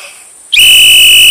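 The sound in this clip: A whistle blown in a text role-play game cuts in suddenly after a faint background hiss, then holds as a loud, shrill, sustained high tone until the end.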